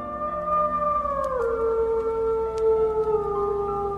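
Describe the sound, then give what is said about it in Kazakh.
A grey wolf howls in one long, mournful, sustained tone that slides downward partway through and then holds at a lower pitch, clear and steady with no voices. “Айдың ішін емденіп көкбөрі, құз басында ұлып отыр о тауба.”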